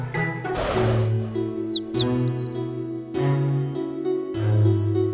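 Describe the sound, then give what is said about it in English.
Bird call: a quick series of high, chirping tweets that bend up and down, heard over steady, sustained musical tones that carry on after the chirps stop. “Bird.”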